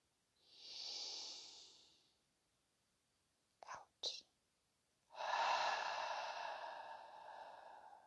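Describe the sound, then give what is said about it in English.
Deep, slow breathing, heard quietly: a long airy breath, two short sharp intakes through the nose, then a longer hissing breath that gradually fades. “Breathe.”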